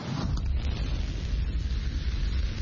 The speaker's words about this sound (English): The flight featured a new version of the rocket crucial to company plans.